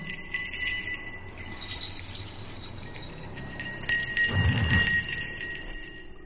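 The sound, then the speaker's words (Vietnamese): A steady bell rings on and on, its bright sustained tones holding evenly throughout while a low rumble swells briefly near the end. “Cùng với tiếng gọi, đâu đó vang lên nhịp chuông đều đều, là cái nhịp chuông quen thuộc.”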